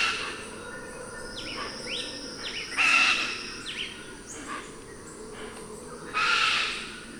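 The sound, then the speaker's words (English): Harsh, squawking calls of a chestnut-fronted macaw flying overhead: two loud raspy bursts stand out, with fainter calls between them, over a steady background hum. “a chestnut-fronted macaw flying overhead.”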